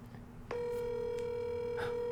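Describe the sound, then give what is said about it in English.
Telephone line tone as a call to a guest is dialed: after a quiet start, a click leads into a steady, sustained buzzing tone that holds unchanged to the end. “I'm just going to go ahead and dial her in because we have some great news to tell her.”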